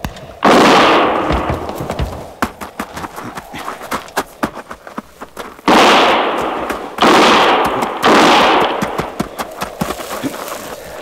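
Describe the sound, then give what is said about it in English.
Gunfire in an old western serial: four loud, sharp blasts with long, ringing decays at uneven intervals, set against a steady, rapid clatter of hoofbeats. “Start firing.”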